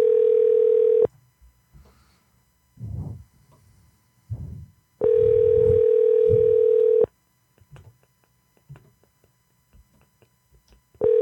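Telephone ringback tone while a call is being placed: a loud, steady single-pitch tone sounds in bursts of about two seconds, separated by longer quiet gaps that hold only faint low rumbles and clicks.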